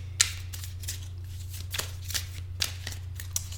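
Tarot cards being shuffled by hand for a reading, a quick run of soft riffling bursts over a steady low hum.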